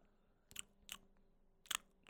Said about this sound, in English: I'm eating some oxtail right now.